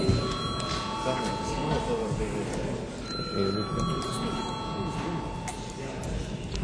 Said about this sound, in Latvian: Lūdzu zvanu.